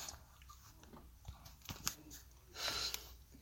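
Crunchy chewing of biscuits, with a few crisp bites and crunches scattered through a quiet stretch and a slightly louder grinding burst near the end.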